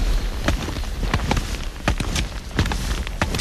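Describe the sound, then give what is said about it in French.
Touring skis sliding through powder snow in the northern French Alps, with many soft crunching swishes in an uneven stride rhythm over a faint background hiss. No one speaks. “Les skis de randonnée font leurs traces dans la neige poudreuse.”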